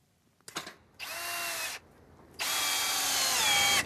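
Power-drill whirring as screws are driven in while building a replica of a Congo village in Frognerparken, Oslo: a short rattle, then two long steady high-pitched bursts of motor drive separated by a brief quieter gap.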